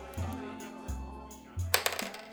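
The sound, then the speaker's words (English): A twelve-sided die is rolled during a tabletop game session. It rattles in a quick burst of several light, sharp clicks near the end, over a steady low hum. “Go ahead and roll me a D12.”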